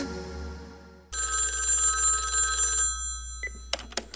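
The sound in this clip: A telephone rings in one long, bright electronic burst that stops sharply, followed by a few short ticks.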